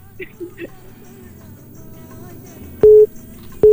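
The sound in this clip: Telephone busy tone after a call was cut off: two loud, steady low beeps, the second cut short, over faint background sound.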